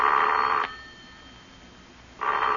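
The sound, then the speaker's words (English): A telephone rings in two bright, trilling bursts, the first about half a second long, followed by a quieter gap. The second ring starts near the end and is cut off. “Because the four numbers I just dialed make your own phone ring.”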